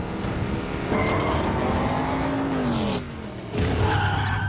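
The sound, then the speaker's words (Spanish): A car driven at full speed in an action film roars with screeching, skidding tires. The loud engine surges, dips briefly, then surges again. “Toreto conduce a toda velocidad.”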